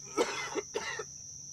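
Two rough coughs clearing morning mucus from a man waiting in a duck blind before daylight on the opening day of teal season. They are short, throaty bursts with no talk, over a steady high whine in the background.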